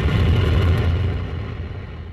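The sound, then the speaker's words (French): A Soyuz rocket lifts off from the Kourou space centre in French Guiana, carrying a space-telescope satellite. Its deep, continuous roaring rumble starts strong and then gradually fades. “au moment du lancement du satellite dans une fusée Soyouz depuis le centre spatial de Kourou en Guyane.”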